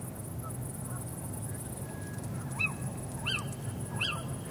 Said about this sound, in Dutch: De Canadese gans op de achtergrond.